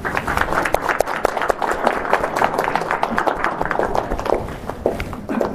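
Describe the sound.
Applause from an audience at a formal ceremony. Many individual claps are sharp and distinct, giving a brisk, uneven patter that stays fairly loud and steady throughout.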